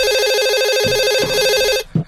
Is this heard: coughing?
no